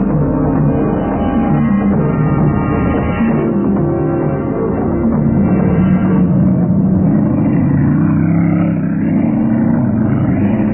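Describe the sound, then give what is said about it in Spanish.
A fast racing car engine driving: a dense, continuous low roar and rumble that holds steady and loud for about eleven seconds, with no voices over it. “las recias y musculosas manos de Calimán se aferraban al volante de un veloz auto de carreras”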